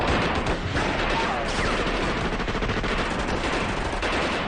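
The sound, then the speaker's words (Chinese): Sustained gunfire in a battle: many rapid, overlapping shots merge into a dense, loud, continuous rattle that runs through the whole clip without a pause. “有子弹从这边射过”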